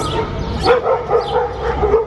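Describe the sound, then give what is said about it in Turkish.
Dogs barking and yelping during a street attack in Kapaklı, Tekirdağ, where a stray dog set upon a pet dog being walked: many rapid, high-pitched yips and barks in an uneven, frantic burst, fairly loud throughout. “Tekirdağ Kapaklı ilçesinde sokakta köpeğini gezdiren genç başka bir köpek tarafından saldırıya uğradı.”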